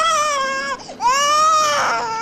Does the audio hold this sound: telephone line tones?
no